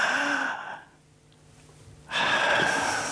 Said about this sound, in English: Now, the first thing I want you to do is have a really deep breath. Inhale.